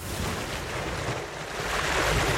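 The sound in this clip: Ocean waves make a steady, broad wash of surf that swells louder toward the end.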